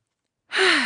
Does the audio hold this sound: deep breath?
yes